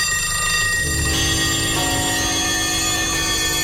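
Many alarm clocks ringing at once: a dense, loud wall of overlapping bells and metallic chimes that sustains without pause from start to finish.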